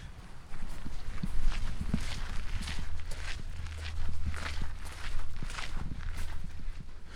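Footsteps walking along a path through a historic herb garden, a steady, even pace of soft treads at moderate loudness over a low, constant hum.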